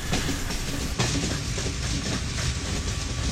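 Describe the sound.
Train wagons rolling on rails, a long train of nearly forty wagons in two sets hauled by one locomotive, giving a loud, continuous rumbling clatter with steady rail noise and no voices.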